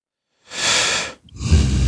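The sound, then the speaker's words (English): Breath drawn in through the nose, then a short held pause, then an exhale. Two clear airy rushes split by a brief silence, fairly loud and with no talk. “Confident breath in. Again, inhaling through the nose, holding it. Exhaling.”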